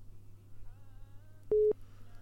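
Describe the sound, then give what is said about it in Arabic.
A single short telephone busy-signal tone from a failed call sounds sharply over a faint low hum and then stops. “طيب في مشكلة عند المتصل اتصل علينا مرة أخرى معنا اتصال آخر فشل الاتصال مرة أخرى من التليجرام”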